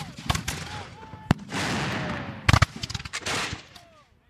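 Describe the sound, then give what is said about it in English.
Artillery at the Alamo fires cannonballs and scrap metal in battle: many sharp, loud blasts come in quick, irregular succession, some in tight clusters, with rumbling noise between them. “The Texans fire scrap metal and cannonballs from their artillery, ripping Mexican soldiers to shreds.”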